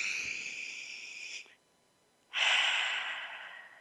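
A deep breath in and a slow exhale, heard as two airy, hissing breath sounds separated by a short silent pause. The second breath is louder and fuller, then gradually tapers off.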